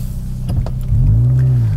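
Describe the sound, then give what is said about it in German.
A car engine revving after launch control is engaged in N mode: a low rumble with a few brief clicks, then a sudden louder rev that climbs in pitch and holds as a steady roar. “was ich hier auch habe, ist die Launch Control. Die ist serienmäßig. Ich tippe hier drauf.”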